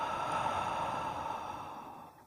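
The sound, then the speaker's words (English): A deep breath, in through the nose and out through the mouth, heard as one long, soft, airy sigh that fades away at the end. “Now take a deep breath in through the nose and out through the mouth.”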